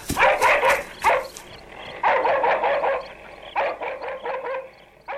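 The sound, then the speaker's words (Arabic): Dogs barking in quick, loud bursts: clusters of sharp barks separated by brief pauses, several dogs overlapping with no talk over them. “الأصوات بدأت تتعالى أكثر يا أبي. أبي، ربما تريد هذه الكلاب أن تهاجم خالد.”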